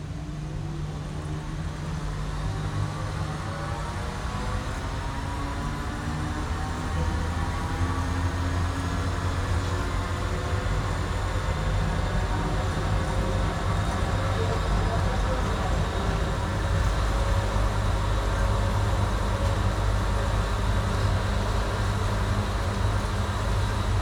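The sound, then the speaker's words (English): Gatwick airport transit train approaching the North Terminal, with a steady rumbling roar and a faint whining drone that holds evenly throughout. “This transit is approaching Gatwick North Terminal.”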